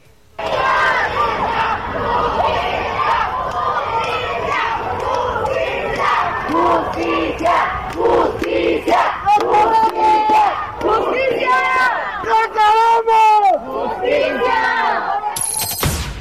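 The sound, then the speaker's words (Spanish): Loud, sustained chanting and shouting from a large protest march crowd in the streets of Morelos, Mexico, demanding justice over a woman's murder, with rhythmic rallying cries over continuous crowd noise. “Así sonó esta marcha el día de ayer, el dolor desde las calles en Morelos.”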